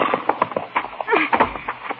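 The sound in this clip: Horse hooves clip-clop with many uneven knocking steps in a loose, shuffling rhythm, fairly loud and continuous throughout, as pack animals are handled at night.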